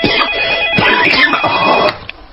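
Telephone ringing in a radio drama scene, a loud, bright electronic trill with a steady high tone that sounds for about two seconds, then cuts off, leaving a faint click.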